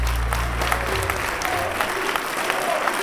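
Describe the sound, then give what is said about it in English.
Supporters applauding and cheering as Macedonian Prime Minister Zoran Zaev arrives in a luxury hotel ballroom to declare victory: dense, steady clapping throughout, with a low hum at the start. “Macedonian Prime Minister Zoran Zaev offered a different view. His supporters cheered when he arrived in the ballroom of a luxury hotel to declare victory.”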